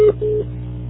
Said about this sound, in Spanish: grabe su mensaje después del tono